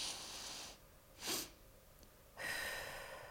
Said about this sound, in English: is a physiological sigh. And how you do that is you do an inhale through your nose. Another short inhale and then a long, so,